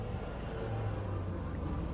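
A car drives along, heard from inside, on a last drive before being handed over. A faint, even low rumble of road and engine noise holds steady throughout, with no talk.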